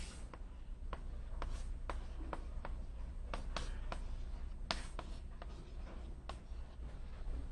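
Writing during a physics lecture: many short, scratchy strokes in an irregular rhythm, some sharper than others, over a low steady hum with no talk.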